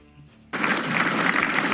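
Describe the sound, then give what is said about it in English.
Applause in the Senate chamber breaks out abruptly after a brief quiet moment, then carries on as a loud, steady wash of many hands clapping. “All right, applause, applause, applause.”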